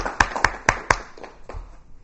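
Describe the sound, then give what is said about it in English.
Clapping for school indoor track records: four sharp, evenly spaced claps, followed by softer scattered claps that fade out. “So a big round of applause for all the indoor track records.”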